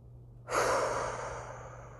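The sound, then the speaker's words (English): A single deep breath enters abruptly as a soft, airy rush, then slowly fades over about a second and a half above a faint, steady low hum. “Let me take a deep breath. Will you take a deep breath with me?”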